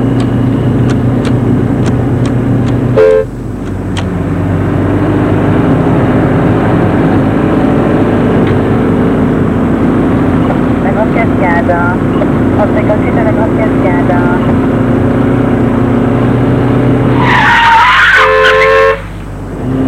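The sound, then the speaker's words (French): Taxi driving through city streets, with a loud, steady rumble of traffic throughout and a car horn blaring near the end. “Alors, ils entrent dans un taxi.”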